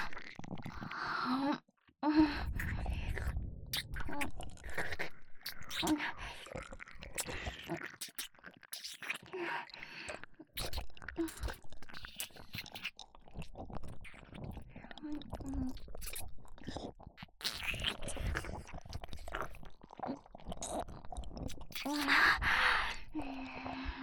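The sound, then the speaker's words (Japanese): Someone eating and chewing food, with soft irregular bites and crunches broken by sighs and breathy gasps, faint and uneven over a long stretch. “いいわ、勝手に食べるから。”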